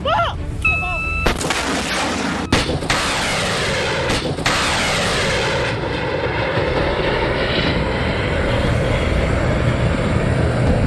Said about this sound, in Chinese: 北方向发现敌机两架。